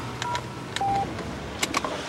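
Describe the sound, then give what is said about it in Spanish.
A telephone number is dialed in a car driving away from the Montparnasse Tower: a few short keypad beeps, one held longer, mixed with sharp clicks over the car's low steady rumble. “Jan sale con su coche de la Torre Montparnasse marcando un teléfono.”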